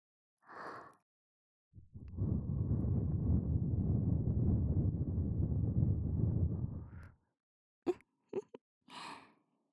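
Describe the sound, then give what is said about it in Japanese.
A woman's soft breath blown into the ear, a long, steady, airy hiss lasting about five seconds, preceded by a short breath and followed by a few quiet clicks and another brief breath. “お姉さんにこうしてお耳ふぅされるの好き？”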